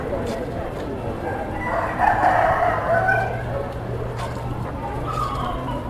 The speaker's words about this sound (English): I always find these chickens to be very fascinating.